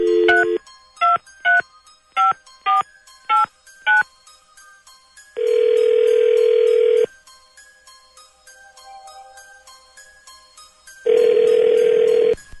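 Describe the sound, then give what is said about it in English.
Telephone keypad tones beep seven times in quick succession as a number is dialed at random, followed by two long, even ringback tones separated by a pause. “let's find out. Dialing at random.”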